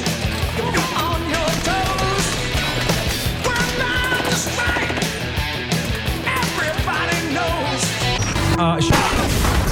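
Dense gunfire in combat right after a command to fire: many overlapping shots and heavy booms pile up into a loud, continuous barrage that lasts throughout.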